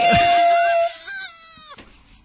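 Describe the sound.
A human voice imitates a dial-up modem's screech with wailing, warbling harmonic tones that shift in pitch. A steady electronic beep tone covers the opening part, and the screech breaks off into a short noisy burst near the end.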